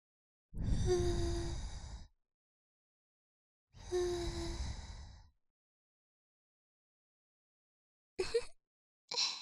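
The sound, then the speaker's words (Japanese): Gentle breathy blowing into the ear during an ear-cleaning roleplay: two long, soft airy puffs, each lasting about a second and a half, followed by a couple of short, abrupt sounds near the end. “それではお耳の中をふうふうしますね。いきまーす。”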